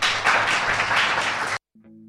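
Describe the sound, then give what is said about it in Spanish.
An audience applauds after a round of thanks: dense, steady clapping that cuts off abruptly after about a second and a half, followed by a short, low tonal hum. “Un aplauso, por favor.”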